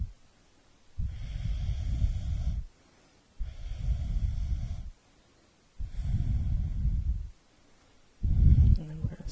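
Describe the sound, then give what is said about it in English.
Deep Ujjayi breathing during a yoga class. Four long, hushed breaths with a throaty rasp, each lasting over a second, are separated by short quiet pauses and keep a slow, even rhythm. “Deep Ujjayi breath.”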